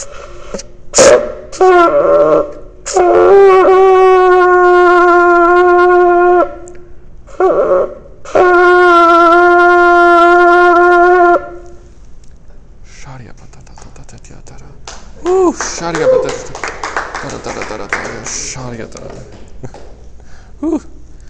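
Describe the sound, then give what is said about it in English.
A ram's horn shofar is blown with a bright, brassy, harmonic-rich tone. Short blasts alternate with two long sustained blares, and a man's voice follows afterward. “oh, it's the sound of a ram's horn.”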